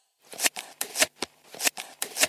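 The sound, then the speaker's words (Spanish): Knife cutting fruit, a series of short, rasping swishes in a fairly steady rhythm, each building to a brief scrape before cutting off, with no voices. “Cuchillo. Mi papá está cortando las frutas.”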